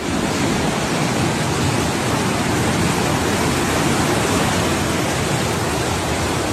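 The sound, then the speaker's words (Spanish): Rainwater rushing like rivers through the streets of a town in Spain during a February storm, as groundwater surges up from the higher part of town. A loud, steady, unbroken roar of water fills the whole clip. “Los vecinos de Ubrique han visto cómo sus calles se han convertido en auténticos ríos, un espectáculo de la naturaleza.”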